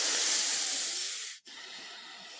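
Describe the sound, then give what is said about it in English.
Slow, Darth Vader-like breathing exhalation during a relaxation exercise: a long, steady, airy hiss, a brief break, then another drawn-out breath. “Inhale through your nostrils rather than your mouth. Lengthen your exhalations in order to relax. Okay, think about like Darth Vader on this one.”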